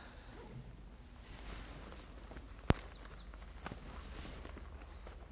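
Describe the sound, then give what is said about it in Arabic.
A sparrow chirping: a few faint, short, high chirps that sweep downward, with one sharp click between them over a quiet hiss. “العصفور.”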